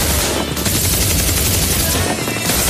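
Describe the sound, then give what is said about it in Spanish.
A machine gun fires a loud, sustained burst. The rapid shots blur into a dense, continuous crackling roar that barely eases at any point. “¿Quién ha disparado con la ametralladora?”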